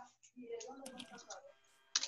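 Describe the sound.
Light clicking taps of typing a message on a keyboard, a quick run of soft keystrokes heard under people talking.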